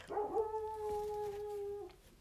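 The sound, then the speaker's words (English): A dog gives one drawn-out, whining howl that holds a steady pitch for a couple of seconds and then tapers off, heard alone at moderate volume. “Please forgive the barking dog.”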